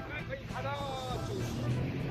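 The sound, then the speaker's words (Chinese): A jet ski engine drones steadily as the craft runs on water, a faint continuous rumble beneath people's excited talk. “问一下教练，这个摩托艇能够开多大的马力？”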